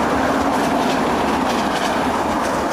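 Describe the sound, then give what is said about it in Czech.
A train passes on a railway line beside a busy road amid wild nature: a loud, continuous rolling rumble with rhythmic wheel clatter and a faint metallic squeal, steady from start to end with no talk. “Frekventovaná silnice, železniční trať a právě v tomto úžasném kontrastu divoká příroda. Přesunuli jsme se o pár desítek metrů dál, počkali, až přijede vlak”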